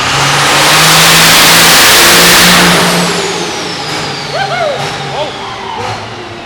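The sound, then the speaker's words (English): A car engine revs hard on a dyno at about 2,000 RPM during a test run. A loud, sustained roar builds and holds for a couple of seconds, then gradually eases off. “Creeping up towards 2,000 RPM, about 45 miles an hour. Going to roll into that test window. I got a feeling he bumped up his RPM just a little bit.”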